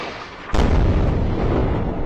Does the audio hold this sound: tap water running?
no